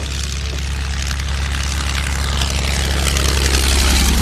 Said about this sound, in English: The sound of the tanks has been concealed by low-flying aircraft, another great technological innovation of war.